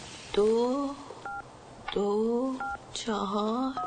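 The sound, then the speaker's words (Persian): Telephone keypad tones as a young woman dials a home phone: a few short, steady two-note beeps set between louder, gliding voice-like tones. No handset pickup stands out. “زن جوان میره گوشی تلفن رو بر میداره و میاد طرف دختر.”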